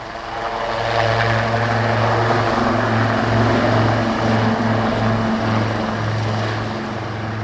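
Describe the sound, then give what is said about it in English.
A Lynx anti-armour helicopter with its distinctive rotor head produces a loud, continuous low thrumming drone, with a rhythmic rotor pulse beating steadily under a broad engine and turbine roar. “it's got a unique sound, the Lynx, hasn't it? Absolutely, absolutely, and that's to do with that unique rotor head.”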